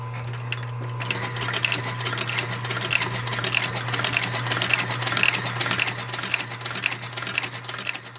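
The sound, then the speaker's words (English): A Landis 12 stitching machine, grass green, about four feet high with large silver wheels, sews neat rows of stitching along the outer soles of boots in a boot workshop. It makes a steady, rapid mechanical clatter over a constant low motor hum, with no talk. “It's used to create neat, tight rows of stitching along the outer soles of boots.”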